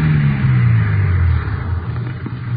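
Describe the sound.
A car engine rumbles loudly and low as it drives along a dirt road and pulls up. The drone is heavy at first and eases somewhat in the second half.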